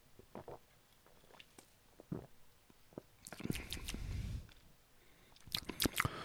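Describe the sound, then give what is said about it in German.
Faint sips and swallows of Feldhins Fassbrause Cola Orange, a cola-orange soft drink: soft wet slurps and gulps, with a denser burst of liquid noise midway and a few more clicks near the end, no talk. “Also, dann nehme ich jetzt nochmal einen Schluck. Hatte gar nicht so viel Zeit heute zu probieren und zu trinken.”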